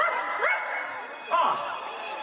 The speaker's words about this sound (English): Where is that dog?